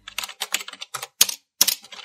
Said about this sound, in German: Mit flinken Fingern startete sie ihren PC tippte einige Zahlenkombinationen ein und atmete tief durch.